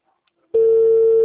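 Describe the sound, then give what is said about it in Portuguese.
A telephone call tone plays as a call is placed, just before it is forwarded to voicemail. Near silence gives way to a steady mid-pitched tone that begins abruptly and holds, unbroken and even, to the end. “Francisco Vinícius, foi caixa postal, não foi isso? Chamada encaminhada para a caixa.”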